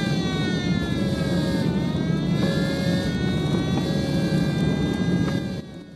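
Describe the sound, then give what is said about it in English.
Vehicle engines roar as emergency vehicles race out to a burning bomber plane after a fiery explosion. The loud, steady rumble carries whining tones and drops away sharply near the end. “emergency vehicles race out to the burning plane”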